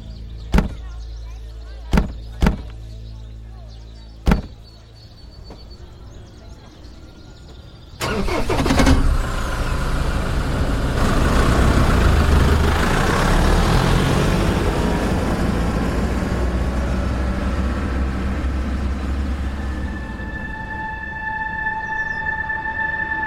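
A vehicle engine starts up as a group drives off, preceded by a few sharp knocks; the motor catches with a burst and settles into a steady, rumbling run that continues to the end.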